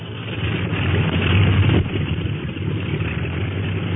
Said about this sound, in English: Say, they're winding up the clipper motors.